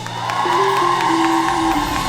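An audience cheers and whoops for a performer at a show. The crowd noise is loud and sustained, and a long, drawn-out whoop rises above it.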